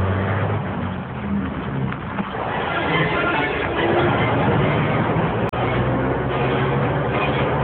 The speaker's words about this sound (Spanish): ¿Lo ves? El motor se pone en marcha.